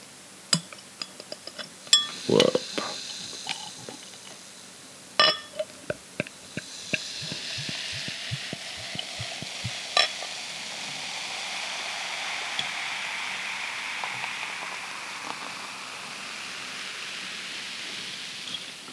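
Beer poured from a swing-top bottle into a glass: a few sharp glassy clinks and clicks first, then a steady hissing, fizzing pour that carries on softly to the end.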